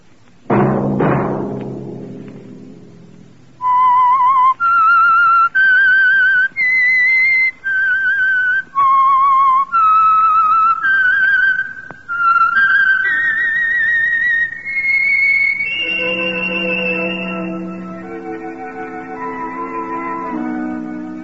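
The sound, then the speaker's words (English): A whistled melody, the signature tune of a radio mystery drama, runs as a string of clear, high, separate notes that step up and down, then settles into a long held note over low sustained tones. “Let that whistle be your signal for the Signal Oil program, The Whistler, each Sunday night at the same time.”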